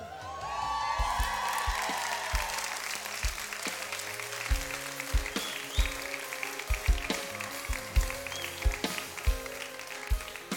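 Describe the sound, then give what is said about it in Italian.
Audience applause at a Sunday gathering, welcoming a guest: continuous clapping runs throughout, with a regular pattern of low thumps beating beneath it. “vogliamo fare un applauso a Marta che è qui con noi.”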